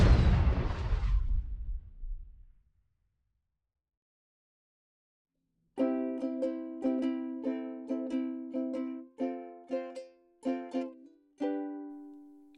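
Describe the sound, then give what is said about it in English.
Rocket boots blasting off with a loud, noisy rush that fades away over about two seconds. After a silence, a run of bright plucked musical notes follows. “Now I gotta blast off in my rocket boots back to the moon!”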